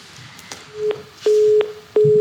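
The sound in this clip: A phone call to a studio drops, leaving a steady mid-pitched disconnect tone that comes as a few separate beeps, one short and then longer ones, with quiet gaps between.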